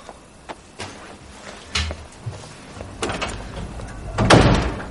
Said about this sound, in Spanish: La joven se marcha enojada y Daniel se levanta a cerrar la puerta con llave.